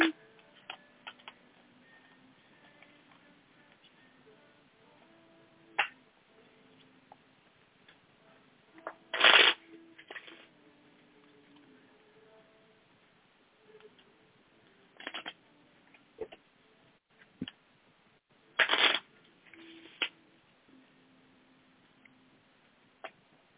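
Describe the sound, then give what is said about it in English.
Tarot cards being shuffled by hand: quiet, intermittent rustles and soft snaps of the deck, broken by a few louder, sharper bursts of riffling. “I'm shuffling the cards for you, making sure there's nothing left over from the last reading”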